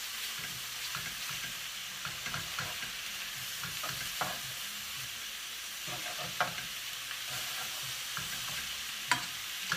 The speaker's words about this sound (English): I'm quite glad that I put the other courgette in here now. It's cooking really nicely.